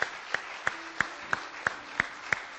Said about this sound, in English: we just put our hand together and just tell them thank you for being here today? Come on, let's welcome them.